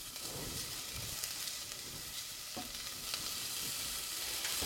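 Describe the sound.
Garlic frying in a pan gives a continuous bright sizzle and crackle, with scattered sharper pops and a few stirring scrapes, and no talk.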